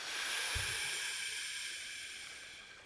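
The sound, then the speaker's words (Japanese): A deep breath out during a guided relaxation exercise makes a soft, airy hiss that slowly fades over about three seconds, faint and alone with no talk. “ではまず大きく息を吐いて。”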